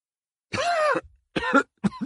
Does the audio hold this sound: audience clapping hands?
no